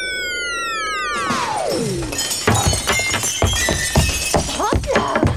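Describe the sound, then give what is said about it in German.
A glass window pane shatters at a school in a children's audio drama as a broom-riding witch lands too fast. A long descending whistle comes first, then a loud crash scatters into tinkling, clattering debris. “Wieder eine Scheibe kaputt.”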